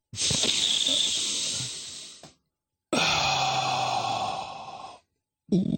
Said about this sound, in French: Et j'actionne l'ouverture de ma bouteille d'oxyschnaps. Le gaz qui rend heureux.